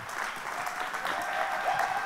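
Church audience applauding as a guest pastor is welcomed: a dense, steady wash of clapping that holds at an even, fairly loud level from start to finish.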